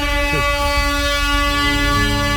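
An air horn jingle blares as a steady, sustained multi-tone blast, loud and unbroken from start to finish.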